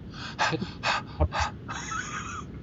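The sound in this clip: A person gasps for breath after a long stretch of talking, a series of sharp, rasping inhalations followed by a longer, breathy exhale.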